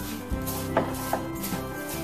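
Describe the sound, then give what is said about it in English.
Crushed peanuts are stirred into a mixture in a bowl: a few soft, gritty scraping strokes with brief crunchy accents, over a faint steady hum. “Now add in about 1.5 cups, can be less if you want, only one if you want, of crushed peanuts. Just mix them all in.”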